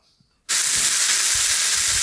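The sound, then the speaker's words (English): Candy straws burn with a loud, bright sizzling hiss that bursts in suddenly after a brief quiet and holds steady, with faint low thumps and pops beneath it. “Oh, that's the straws. That's the straws, the candy straws.”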